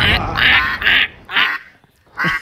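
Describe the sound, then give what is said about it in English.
Duck quacking as a cued sound effect: five loud, raspy quacks in uneven rhythm, three close together, then a pause before the last two. “And then a duck started quacking.”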